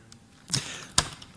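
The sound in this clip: Arrows fired in a video game: two short, sharp swishing releases about half a second apart, crisp and fairly loud over a quiet background.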